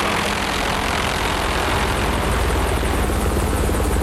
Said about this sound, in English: onto the jetty where a chopper lands